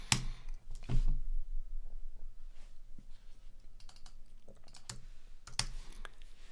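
Computer keyboard typing: a few sharp, scattered key clicks and clacks with uneven gaps, over a faint low hum. No voices are heard.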